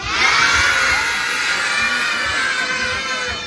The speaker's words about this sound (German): Also ihr hört, die Kinder haben Spaß hier auf der Sandkerber.